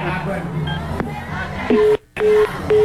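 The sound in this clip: Telephone dialing tones sound as a few short, steady beeps in the second half, following a dense bed of background voices and noise; a brief silent gap splits them.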